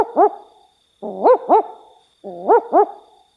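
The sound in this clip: An owl gives three barking calls, each a quick double 'wook-wook' note separated by about a second of silence. The calls are clear and fairly loud, with no voices over them.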